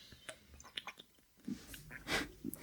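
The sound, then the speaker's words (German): Quiet sips and swallows of cola, soft wet clicks and small gulps in an irregular pattern, with light breathing between them. “Warte, ich trinke erstmal einen Schluck von meiner Cola.”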